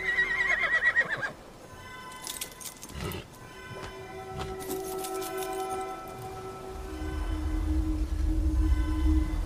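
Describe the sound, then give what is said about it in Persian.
A horse-drawn carriage moving off: a horse whinnies loudly at first, then hooves clatter and a low rolling rumble of wheels builds and grows louder toward the end. “جیران به سمت کالسکه. کالسکه به راهش ادامه میده.”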